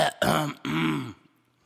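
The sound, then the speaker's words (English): A big, gravelly throat clear rasps out in a few harsh voiced bursts, the last one longest, then fades to near silence. “It was like a big throat clear.”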